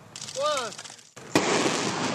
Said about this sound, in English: That, from a video taken by the University of Alaska Fairbanks, is the sound of a rocket launching from Poker Flat Research Range.